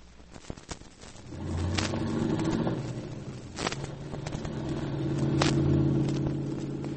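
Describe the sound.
A car is driven, its low, steady engine rumble building and swelling through the stretch, with a few sharp clicks and knocks near the start and later on.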